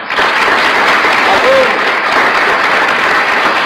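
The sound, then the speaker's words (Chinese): Applause from a restaurant crowd, a dense, even clatter of many hands clapping that holds at a steady, loud level throughout. “全餐厅的人们都为他们的幸福而鼓掌。”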